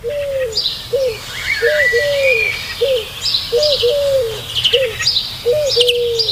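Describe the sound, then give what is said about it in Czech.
Bird calls at dawn: a short whistled note that rises and then falls, repeated many times in an uneven rhythm, with fainter high chirps scattered above it. “Tenhle zvuk tohohle ptáka mě děsí.”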